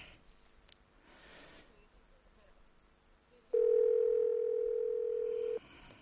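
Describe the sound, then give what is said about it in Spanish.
A telephone ringback tone sounds while a call is placed to a private home: one long, steady, loud tone of about two seconds, following a stretch of quiet background noise. “Estamos llamando a la casa de don Valentín Pobes.”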